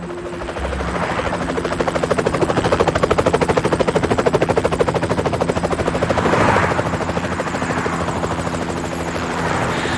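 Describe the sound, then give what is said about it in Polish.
Helicopter flying overhead, a loud continuous rapid rotor chop with a steady engine roar that swells briefly before settling. “Gdy w niewidzialnym niebie przechuczał helikopter”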